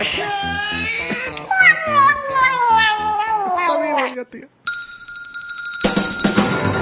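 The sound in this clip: A cat meowing in a long, drawn-out harmonic wail that slides downward in pitch over several seconds, followed by a short steady electronic tone and some noise.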